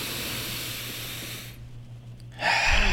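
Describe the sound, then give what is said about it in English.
A deep breath drawn in through the nose during a guided breathing exercise: a steady, airy hiss that stops, then after a short gap a louder rush of air returns. “All right, let's do it in 3, 2, 1, all the way in through the nose.”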